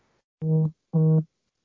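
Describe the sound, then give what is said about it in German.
Phone notification for an incoming message: two short, low buzzing pulses of equal length, separated by a brief gap, then quiet. “Irgendwer hat gerade eine Nachricht bekommen.”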